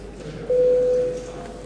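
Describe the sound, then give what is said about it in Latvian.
A parliamentary voting bell rings as a single steady electronic tone, held for under a second and clearly louder than the low hum of the chamber around it. “lūdzu zvanu. Balsošanas režīmu.”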